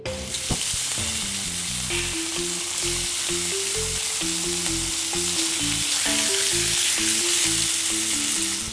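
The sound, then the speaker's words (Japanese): Sizzling of salted and peppered pork slices frying in a pan over medium-high heat: a dense, steady crackle that holds at an even level throughout, with no voices. “豚肉に軽く塩コショウしていたら、フライパンでちょっと焼きますので、”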